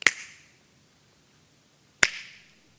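Two sharp finger snaps about two seconds apart during a meditation retreat at Spirit Rock, each a crisp, bright click that decays quickly into near silence.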